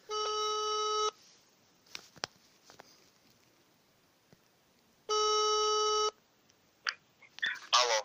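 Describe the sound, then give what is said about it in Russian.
Ringback tone of an outgoing phone call to a suspected scammer: two steady one-second tones about four seconds apart, with faint clicks and line noise in the gaps and a brief crackle at the end. “В общем, ладно, набираю ему сейчас.”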